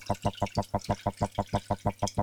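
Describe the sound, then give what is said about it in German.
Milk glugging as it is poured into chocolate, many rapid, evenly spaced liquid pulses at a steady rhythm, moderately loud and alone. “Also, die Milch in die Schokolade schütten.”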